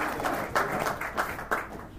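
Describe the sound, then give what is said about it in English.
A staff member claps at the back of the room. A few faint, scattered hand claps sound against a soft background of room noise. “That's one of our staff members trying to applaud back there.”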